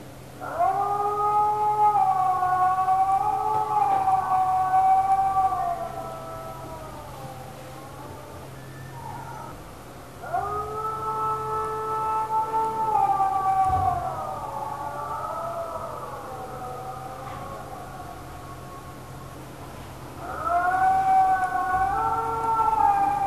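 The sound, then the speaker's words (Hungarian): Wolves howl in three long bouts of wavering, sliding tones, with several voices overlapping in each bout, separated by quieter gaps over a low, steady hum. “És ugye ez a farkas üvöltés, ez egy elég lényeges része a farkasok életének”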